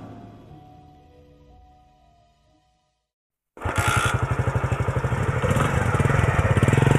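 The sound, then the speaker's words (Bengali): A motorcycle engine: after a fading sound and a moment of silence, it bursts in loud and holds a steady, rapid chugging to the end. “সমর বাইকে চেপে গাড়ি নিয়ে বেরিয়ে গেল”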